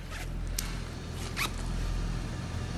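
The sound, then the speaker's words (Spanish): A clothing zipper is pulled down in a few short, faint raspy strokes over a low steady hum. “Te baja la cremallera.”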